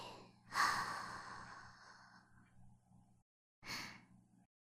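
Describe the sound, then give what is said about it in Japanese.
Slow, deep breathing: a long, drawn-out inhale, then after a short pause a briefer exhale. Both are soft and breathy over a faint, steady low hum, with no talk. “せーの、吸って。吐いて。”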